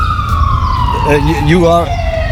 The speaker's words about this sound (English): Just for the record, that's an ambulance passing by.